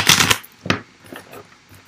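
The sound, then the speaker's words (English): Tarot cards are shuffled in a quick, dense riffle, followed by a sharp snap and a few softer, scattered taps of the deck. “So I'm going to pull three cards to begin with, the past, present, and future, and see what comes out.”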